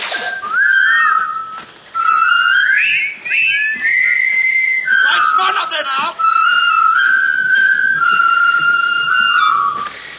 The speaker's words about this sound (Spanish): ¿Cuántas veces hemos escuchado esta melodía y la hemos silbado?